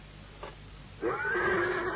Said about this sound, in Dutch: Dat is vader met paarden.